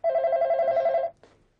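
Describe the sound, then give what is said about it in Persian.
A telephone ringing in a home: one sustained electronic ring of about a second with a steady, bright tone, cut off and followed by a short, quieter blip. “بچه ها چرا پس تلفن رو بر نمیدارین عزیزم؟”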